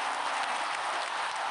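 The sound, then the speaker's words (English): Applause from an audience greeting a new yoga class, a dense, steady wash of clapping that holds at an even level throughout with no voices over it. “So I was going to drum roll this one, but it doesn't matter. Round of applause.”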